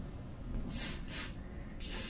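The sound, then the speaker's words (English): Short hissing puffs from a ketamine nasal spray, a few quick bursts of airy mist in a row over a steady low background hum, soft and brief. “Then she lifts a ketamine nasal spray to her nose.”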